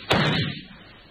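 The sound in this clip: A single pistol shot is fired into a wall: one sharp, loud crack with a short, quickly fading tail.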